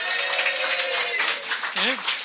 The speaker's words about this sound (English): Please welcome Death. A round of applause for Death.